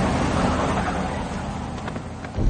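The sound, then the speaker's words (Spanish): Police convoy vehicles driving past in a film scene, a steady broad engine roar that dips slightly and then rises again right at the end. “El convoy policial pasa cerca de ellos.”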